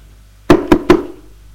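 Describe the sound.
Three sharp knocks on a door break a quiet background. They come in quick succession, loud and hollow, the last two slightly closer together, and a short ringing decay follows before silence returns.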